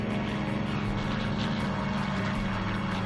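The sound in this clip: Propeller-driven stunt plane flying low with its landing gear up during an overshoot maneuver: a steady, droning engine roar with a strong low hum that holds constant throughout.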